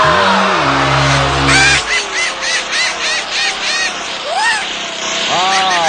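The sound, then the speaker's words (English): A game show whammy sound effect: a low, buzzy tone first steps downward, then a quick run of bouncy, warbling electronic chirps, a swooping upward sweep and a final warble, all loud and cartoonish. “$10,700 wiped out by the whammy, but you only have one whammy and you have three spins left.”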